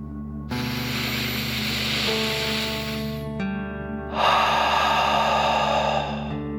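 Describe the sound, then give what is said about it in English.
During a guided kids' meditation, a deep breath is drawn in and then pushed out hard, like a dragon breathing fire. Two long, airy rushes of breath sit over steady, soft tonal music. “imagining you are breathing fire like a dragon. Ready? Deep breath in and out.”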